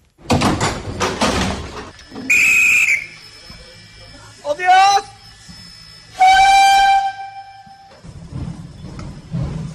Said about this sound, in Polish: Po małopolskich torach kursuje pociąg retro. Zabytkowy skład to lokomotywa parowa i wagony z lat 20. i 60. XX wieku.